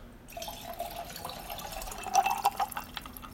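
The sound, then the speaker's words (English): Coca-Cola being poured into a glass: a soft, steady liquid trickle, with a few sharper splashes and drips clustered near the end. “That's the sound of Coca-Cola.”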